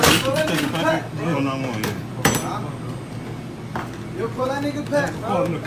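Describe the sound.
A crowbar clanks and bangs against a digital cash register as someone tries to pry it open. A few sharp metallic knocks sound under people talking.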